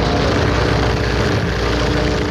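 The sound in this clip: A small propeller plane takes off, its engine a dense, loud droning roar that holds steady and unbroken throughout.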